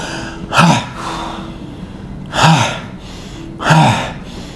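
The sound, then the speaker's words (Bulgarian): Bhastrika yoga breathing: three forceful, rushing breath bursts at an even, unhurried spacing, each sharp and loud against soft, airy breathing in between. “Влез пак в бастрика и ще повторим така още два цикъла такива.”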